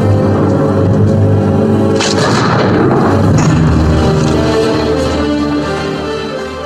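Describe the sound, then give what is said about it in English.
Gunfire in a western shootout as two gunmen draw and fire. The shots are loud and booming over a dense, rumbling roar that fills the whole clip, with a few sharp reports standing out before the sound slowly fades. “Peyton shot Cobb. They both draw. Yeah. Cobb gets hit. And they both shoot. They both shoot, but Cobb misses and Peyton gets him.”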